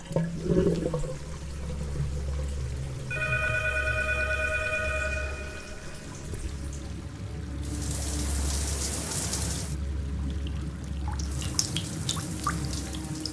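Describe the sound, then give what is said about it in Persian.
Water pours steadily from an open shower into a bathtub that is full and overflowing. A continuous rushing hiss lasts throughout, with a louder, brighter surge of splashing midway. “سپیده ناگهان متوجه حمام می شود. از دور به دوش باز و وان پر از آب نگاهی می اندازد.”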